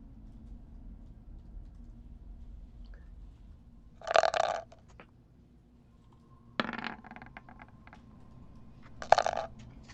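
A virtual 3D dice rolling sound effect from a tabletop role-playing game app: three short clattering rattles, spaced a few seconds apart, over a faint low hum.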